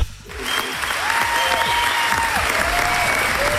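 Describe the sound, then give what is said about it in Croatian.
Applause from a radio studio's technical crew during a quiz call-in. After a brief quiet start it becomes a steady, full patter of clapping that holds at an even level to the end. “Evo, dobili ste i pljesak od naše tehnike.”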